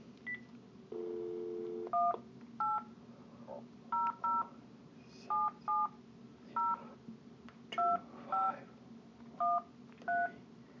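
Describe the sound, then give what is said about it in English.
Touch-tone keypad dialing of a telephone number: a brief steady dial tone, then 11 crisp dual-pitched beeps in short, uneven groups, each clear and evenly loud against a faint line hiss. “Okay, now I'm going to dial the number that they suggested.”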